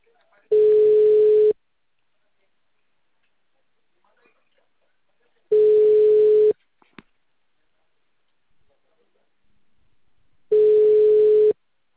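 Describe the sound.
Telephone tone after a dropped call: three identical steady mid-pitched beeps, each lasting about a second and separated by long silent gaps, loud and clean with no talk over them.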